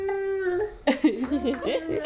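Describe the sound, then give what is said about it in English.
A baby babbles in a brief run of high-pitched coos and varied syllables, starting with a sustained tonal vowel and then breaking into quick, uneven bursts of sound. “He's like babbling away.”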